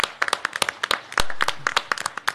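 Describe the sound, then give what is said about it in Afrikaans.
Scattered hand clapping from a small audience at the opening of an exhibition of dancing dolls: quick, uneven claps of varying loudness with no voices. “Applaus”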